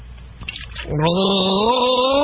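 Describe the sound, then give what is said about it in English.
Someone gargles sparkling fruit water: a short, wet, bubbly sputter gives way to a steady, voiced gurgling hum that carries loudly to the end. “I'm not going to give a drum roll. I'm going to give a sparkling fruits water gargle.”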